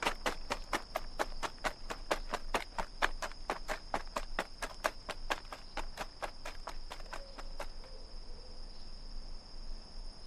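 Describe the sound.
Quick footsteps run up a stairway in many sharp, evenly spaced taps at a brisk steady rhythm, then stop abruptly partway through, leaving only a faint high steady whine.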